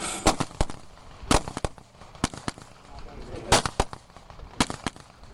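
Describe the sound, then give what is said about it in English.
Gunshots fired during a timed shooting run: many sharp, loud cracks in quick, irregular bursts, with brief gaps between clusters of shots. “she's simply setting up to do a time shoot.”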